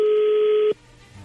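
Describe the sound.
A telephone line tone sounds while a call is being placed: one steady, even tone that cuts off abruptly, leaving faint line hiss.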